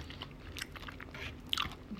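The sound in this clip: Soft chewing of a mochi rice cake taken from a shabu-shabu hot pot: faint, moist, irregular bites and squishes, with no talking.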